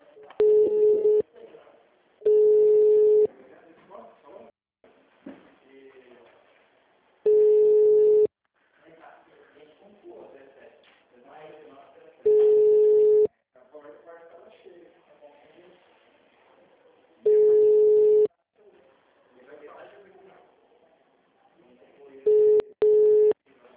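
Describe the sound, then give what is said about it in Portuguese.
Telephone ringing tone while a call is transferred to an agent: short, loud, steady-pitched tone bursts repeat at regular intervals, with quieter talk in between. “Por favor, aguarde. Estamos transferindo sua ligação para um de nossos atendentes.”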